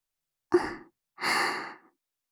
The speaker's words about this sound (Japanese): じゃあこっちもふうするから。